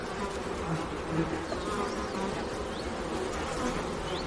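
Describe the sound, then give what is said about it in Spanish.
Honeybees buzz steadily at a hive as a beekeeper puffs smoke over them to calm them before lifting out a frame, a dense even drone with a few brief higher whines passing through. “Con un fumador aplica humo sobre las abejas para calmarlas y a continuación extrae otro marco.”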